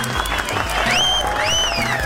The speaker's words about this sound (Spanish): Aplausos. La verdad sí que se merecen aplausos.